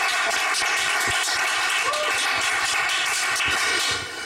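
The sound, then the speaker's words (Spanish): Applause for a guest artist at a live Christmas special: a dense, continuous wash of clapping that holds steady for about four seconds, then tapers off at the end. “Que un aplauso para Estable.”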